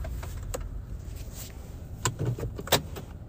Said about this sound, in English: I'm pulling into the driveway.